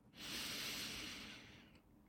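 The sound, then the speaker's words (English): A slow inhale through the nose during a guided breathing exercise: a single soft, airy hiss that swells quickly, holds, then gradually fades. The breath is faint and heard alone. “So breathing in through the nose”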